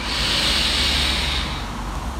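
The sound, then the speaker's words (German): A deep breath drawn in through the nose makes a long, airy hiss, loud and steady before easing off toward the end over a low background hum. “Nimm nochmal einen tiefen Atemzug durch die Nase”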